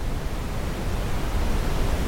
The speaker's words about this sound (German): Du schließt deine Augen und lauschst dem leisen Rauschen des Meeres in der Ferne,